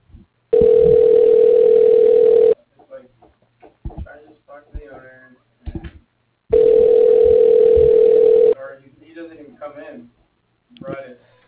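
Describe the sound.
Outgoing phone call to a builder's office ringing unanswered before voicemail picks up: two long, steady buzzing rings, with a person talking quietly in the pause between them.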